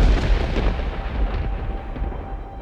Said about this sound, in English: It's too late. Warp core ignition. It's going to explode!